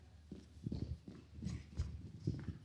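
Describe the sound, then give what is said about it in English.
Footsteps of a person running around a room with a handheld microphone, with a quick, uneven run of soft thuds and scuffs at moderate loudness. “All right, I'm going to run around with a microphone.”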